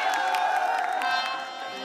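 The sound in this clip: An audience at a live talk show cheers and claps after being invited to applaud: a continuous crowd roar with scattered clapping and whoops that stays steady, then eases slightly toward the end.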